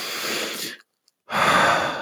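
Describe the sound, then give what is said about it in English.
A deep, conscious breath drawn slowly through the airways: two long, soft, breathy rushes of air split by a brief silent pause, steady and fairly loud, with no talking. “Just that deep breath, just that conscious breathing in”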